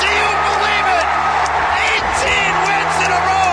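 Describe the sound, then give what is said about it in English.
A baseball stadium crowd roars in bedlam after a bottom-of-the-ninth walk-off home run that clinches an 18th straight win. The dense, loud, unbroken cheering runs the whole clip while an announcer talks excitedly over it. “what you're hearing is all that needs to be said. Absolute, complete, and total bedlam at the Oakland Coliseum.”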